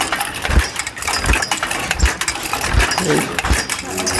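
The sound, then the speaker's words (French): A weaving loom worked by an apprentice weaver in the last year of training: a steady series of low thumps with a clattering beat, under a voice speaking throughout. “Son rythme de tissage est assez différent de celui des autres. Il allie aisément rapidité et maîtrise du métier à tisser.”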